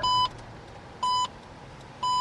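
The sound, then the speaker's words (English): A license plate reader sounds an alarm as a passing car's registration is flagged invalid: three short, bright electronic beeps spaced about a second apart over a low, steady background rumble. “A few minutes later, as a different car passes, another alarm goes off. This time, the plate reader correctly identifies the registration as invalid.”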